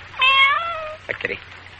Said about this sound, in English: Kitty. Sleepy kitty. Cat doesn't seem to like me. Goes right out the window.